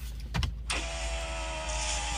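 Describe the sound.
A car's power window being lowered: a short thump and rustle, then the electric motor's steady, humming whine runs on evenly for about a second and a half.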